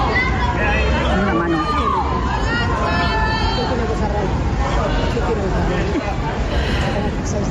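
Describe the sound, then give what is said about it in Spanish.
A crowd of fans greets Orlando Bloom outside the Hotel María Cristina with a loud, dense babble of excited voices, high shouts and squeals rising over it throughout. “Así recibía Orlando Bloom el público que le esperaba a las puertas del Hotel María Cristina.”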